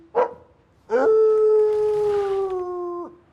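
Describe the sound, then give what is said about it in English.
A dog howls: a brief yelp, then after a short pause a long, steady, drawn-out howl that holds one pitch for about two seconds before cutting off. “Yes, I'd like to call in and complain about a howling dog.”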